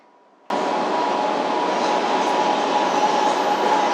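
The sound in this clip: Metro train arriving at Liangxiang Nanguan station gives a sudden onset of loud, steady rolling rumble with a constant mid-pitched hum running through it.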